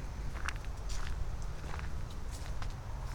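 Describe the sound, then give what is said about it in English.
Footsteps of someone walking out of a hunting blind: several soft, irregular steps, fairly faint over a steady low rumble. “I'm going to turn around and walk out the blind here.”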